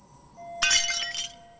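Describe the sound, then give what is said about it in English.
A blood-soaked shard of glass dropped and striking a surface: one bright glassy clink followed by a few lighter tinkles that quickly fade. “He pulls a shard of glass out of his side. He holds up the blood-soaked piece of glass, then lets it drop.”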